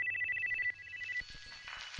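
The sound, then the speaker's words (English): Ringtone of a roughly 20-year-old Qualcomm QCP860 cell phone: a quiet, rapidly pulsing electronic tone that repeats for just over a second before giving way to faint background noise. “It's the sound of my very first cell phone. That also makes it a 20-year-old sound, so yeah, it's historical.”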